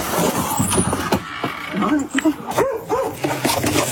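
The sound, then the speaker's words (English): Dog barking in a few short, high yips and barks, mixed in among people talking over it. “It barks? Wow. That's a dog, man.”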